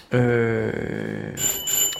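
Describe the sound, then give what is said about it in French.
A door's electric bell rings in a home on rue du Faubourg Saint-Martin: a loud buzzing tone turns into a rattling pulse, then a bright, high-pitched ring carries on to the end. “Et ça, c'est une sonnette de porte.”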